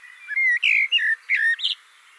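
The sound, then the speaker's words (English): Recorded blackbird song: five brief, high, fluting warbled phrases in quick succession, heard alone against a quiet background. “I thought it might be fun to explore this, so I built an installation using my recordings of Blackbird songs.”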